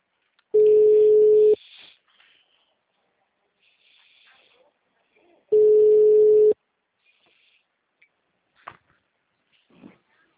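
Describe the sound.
Ringback tone of an outgoing phone call waiting to be answered: two long, steady, loud tones of about a second each, separated by a long pause, followed by faint clicks and rustling.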